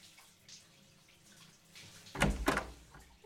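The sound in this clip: Water splashes and runs while someone bathes. A faint, low hiss comes first, then a couple of loud, sharp bursts of water close together near the end.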